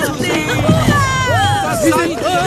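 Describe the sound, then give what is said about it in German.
Villagers on a beach call out joyfully as a rowing boat arrives, several excited voices overlapping with lively rising and falling pitch, fairly loud and continuous throughout. “Das Ruderboot erreicht nach ruhiger Überfahrt den Dorfstrand und wird von den Bewohnern freudig begrüßt.”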